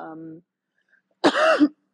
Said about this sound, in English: let me go because my throat feels dry. And I don't want to start coughing.